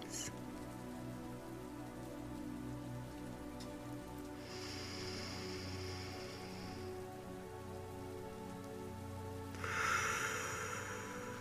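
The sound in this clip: Raindrops fall in a soft, steady patter, quiet throughout, with a few brighter bursts of splashing drops rising out of the continuous rain.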